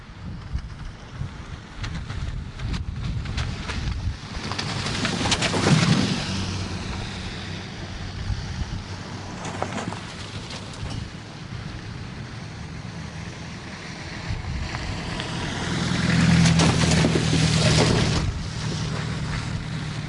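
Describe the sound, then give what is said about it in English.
Vehicles driving through freshly formed 8-inch-deep potholes on First Avenue in downtown Haines after a deep freeze: two main swelling passes of rushing, splashy noise over a constant background hiss, with a shorter burst between them. “This is the sound of vehicles driving through freshly formed 8-inch deep potholes on First Avenue in downtown Haines.”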